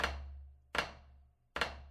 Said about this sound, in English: And then on the rim on top, you can get these sort of just wooden click kind of sounds like rim shots.